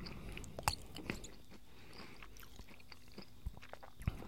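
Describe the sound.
Chewing edamame: a few soft, crisp crunches and bites, short and sharp, spread across quiet moments.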